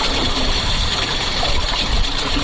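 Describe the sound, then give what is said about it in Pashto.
Water runs through a drip irrigation system in a steady, loud rushing and trickling hiss that continues evenly throughout, with no voices. “دا غږ د اوبو څاڅکي سیستم دی چې د انرژي یا اوبو د ضایعاتو د مخنیوي لپاره یو مرجنه چاره بلل کیږي.”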